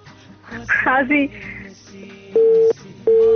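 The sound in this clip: Telephone busy tone after a dropped call: two loud, steady low beeps in a regular on-off pattern, following a short stretch of speech.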